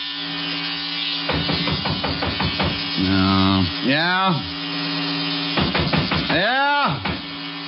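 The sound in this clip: An electric razor buzzes during a shave, a short steady motor drone among other busy, clattering sounds.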